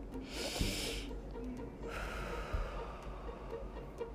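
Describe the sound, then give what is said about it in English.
Slow, deep breathing during a brief calming exercise: two soft airy rushes of breath, the first short and the second longer and fading, over a quiet, steady background noise. “I want y'all to take a minute, breathe with me.”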